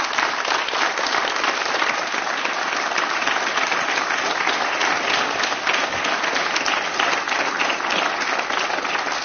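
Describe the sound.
A concert audience applauds warmly, a steady, dense roar of many hands clapping that holds at an even level throughout without pause.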